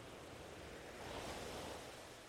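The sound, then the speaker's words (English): Gentle ocean waves washing onto an island shore, heard as a faint, continuous hiss of surf that swells slightly in the middle before easing, with no voices present. “listening to the sounds of the water, the waves washing gently onto the shore, you are one with this place,”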